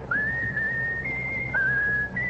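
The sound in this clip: A pet bird whistles a patriotic tune on command, producing clear, high, sustained notes that step between a few nearby pitches in a smooth run, with no voices over it.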